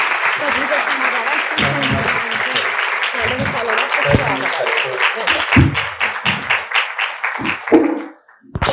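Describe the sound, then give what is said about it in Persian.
A crowd claps in sustained applause, the dense patter running for several seconds while voices speak over it in repeated bursts; the clapping thins toward the end, briefly drops out, then returns. “دست می‌زنم.”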